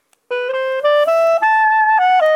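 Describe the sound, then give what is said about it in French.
A clarinet plays alone, a short phrase of clean, sustained notes that climb in steps and dip slightly near the end, loud and steady. “Une clarinette en haut à gauche.”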